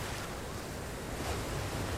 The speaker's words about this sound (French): Et ces vagues, elles sont belles alors? Oui, elles sont très belles, ces vagues.